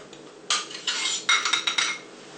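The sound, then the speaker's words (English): Metal utensils clink lightly against a dish as a cake knife and spoon cut out and lift a square piece of cake for a custard dessert, a quick run of several bright taps and scrapes with no talking. “now with a cake knife, I'm just going to cut out a square piece. So here we go. I'm just going to use a spoon as well to help me.”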